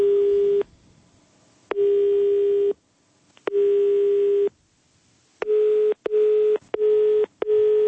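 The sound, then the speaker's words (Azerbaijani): A telephone busy signal plays after a call is hung up. The steady mid-pitched electronic tone sounds first in a few long beeps, then in quicker, shorter pulses near the end, with no talk. “Əvəzində üzümüzə telefonu qapadı.”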